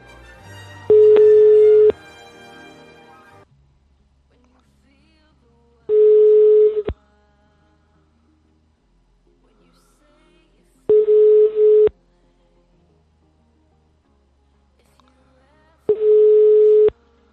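An unanswered phone call rings out on the line: four long, steady mid-pitched ringback tones about five seconds apart, each lasting roughly a second, with near silence between them.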